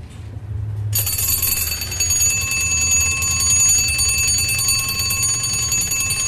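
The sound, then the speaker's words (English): An early mechanical alarm clock, set by a disc on the dial behind the hands, rings with a loud, bright, metallic bell. It starts abruptly after a brief quiet moment and continues without pause to the end. “This is an early alarm mechanism. And it can be set by a disc at the front of the dial behind the hands. And this is the sort of tone that you get from that.”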